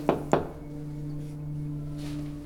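Two quick, sharp knocks on a door land close together at the start. A steady low hum continues afterward with no voices.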